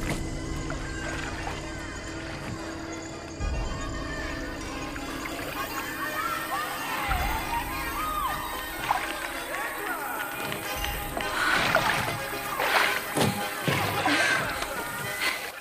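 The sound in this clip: A rowboat is rowed through water by one person, the oars dipping with steady sloshing and splashing strokes that pick up pace. The water noise runs continuously under a dense background, growing somewhat louder and busier toward the end.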